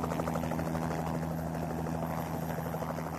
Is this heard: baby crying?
no